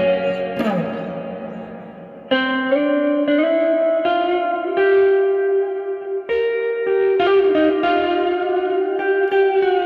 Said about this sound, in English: Love it. It's pretty cool. Church reverb.